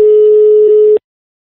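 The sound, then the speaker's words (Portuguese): A telephone ringback tone plays on an outgoing call: one steady mid-pitched beep lasting about a second, loud and alone, then cutting off abruptly into silence. “Eu vou ligar pra Mônica.”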